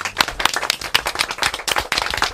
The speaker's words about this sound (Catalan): Anem a fer un aplaudiment, va.